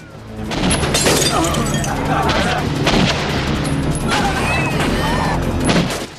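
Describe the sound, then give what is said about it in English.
A film shootout with a shotgun and pistols: many sharp gunshots ring out in quick, irregular succession, some cracking with glassy shatter, over continuous noisy action with voices mixed in. “Paul opens the glove compartment and grabs an automatic pistol. He opens his door and starts shooting at the men. They all fire back.”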